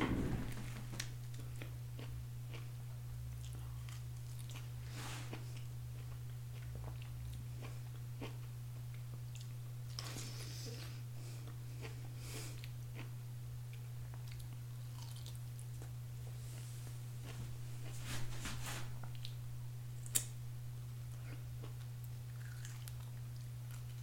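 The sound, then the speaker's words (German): Someone chews and bites into a peach, making soft wet squishes and crunches scattered over a steady low hum. The sounds are faint and no one speaks. “Ich muss, ich muss mal diese Pfirsich fertig essen. Einen Moment.”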